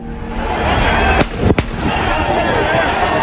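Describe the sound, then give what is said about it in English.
A young man standing on scaffolding fires two gunshots into the sky from a firearm: two sharp, loud cracks about a third of a second apart over steady, dense background noise. “decides to scale the scaffolding, turns around, brandishes a firearm, aims the firearm into the sky, and fires off 2 rounds. Let's roll the tape.”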